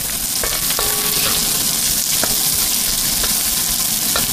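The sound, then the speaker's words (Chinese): Sizzling stir-fry of bolete mushrooms with chopped cured pork, dried chilies, green Sichuan peppercorns and plenty of garlic in lard in a hot wok: a loud, continuous frying hiss broken by a few sharp metallic clinks of the utensil against the pan. “上剁碎的腊肉、干辣椒和青花椒，热锅煸炒，再倒入牛肝菌，放入大量的蒜”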